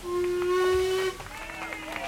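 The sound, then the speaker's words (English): A steam train engine gives a long whistle as it stops at a platform: a steady, clear tone holds for about a second, then gives way to softer, lower sounds. “It stops at the platform. The engine gives a long whistle.”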